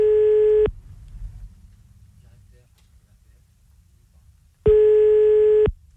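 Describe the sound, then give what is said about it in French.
Ringback tone on an outgoing telephone call: two bursts of a steady, mid-pitched buzzing tone, one at the start and one near the end, separated by a long quiet gap with faint low noise. “c'est parti, je l'appelle monsieur Teboul”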